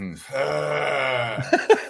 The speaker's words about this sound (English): No, that's just a groan. That's just a groan.